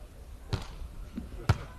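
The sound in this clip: A volleyball is bounced twice on the court before a serve in a Jinan team match, two dull, low thumps about a second apart over a faint background hum.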